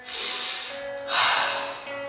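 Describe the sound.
Deep, deliberate breathing during a guided breathing exercise: two long, airy breaths one after the other, each full and steady, with a faint sustained tone beneath them.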